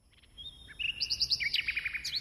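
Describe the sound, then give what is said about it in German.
A nightingale, a small grey-brown songbird, sings a rapid run of bright high chirps and whistled notes. Many short phrases repeat in quick rhythmic bursts, building from soft opening notes to a louder, busier stretch. “Die Nachtigall ist nicht irgendein Vogel. Vielmehr ist der kleine graubraune Piepmatz eine Art Heldentenor unter den Singvögeln. Keine andere Art zwitschert so schön wie er.”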